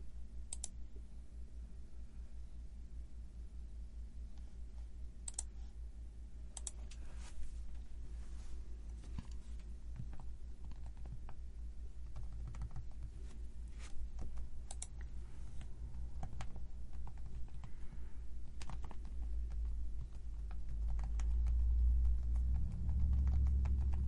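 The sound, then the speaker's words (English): Typing on a computer keyboard: many quiet, irregular key clicks over a low steady rumble, with no voices. “you got to listen to me type”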